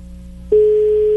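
A phone call's ringing tone cuts in after half a second of low hum. It is a loud, steady mid-pitched tone that holds unbroken to the end, with no talk.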